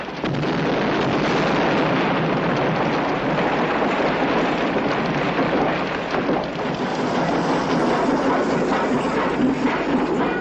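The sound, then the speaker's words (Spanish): Explosions as buildings blow up in a burning town in a 1973 western, heard as a loud, continuous rumbling roar that stays dense and steady for the whole stretch, with no separate bursts standing out. “De pronto, los edificios comienzan a volar por los aires, provocando una dantesca imagen del poblado en llamas.”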